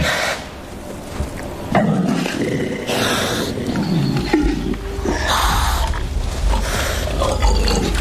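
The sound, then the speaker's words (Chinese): Two male wild boars fighting, evenly matched, giving loud deep roaring grunts and harsh squeals in overlapping bursts, with heavy low rumbling throughout. “又一只雄性野猪前来，向刚才那只野猪发起挑战。双方势均力敌，谁都不肯退让。”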